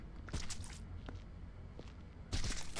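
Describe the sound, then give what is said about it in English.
Soft footsteps of a video game character walking slowly while carrying a sloshing load, a few muffled steps over a steady low background, with a louder cluster of steps near the end. “I figured out if I hold shift, I can walk, which sloshes less.”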